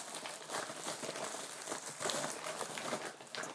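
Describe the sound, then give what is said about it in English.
A bag is folded closed around a tin of food in a kitchen, producing a faint, continuous stream of irregular crinkling and rustling. “Put the tin back in the bag.”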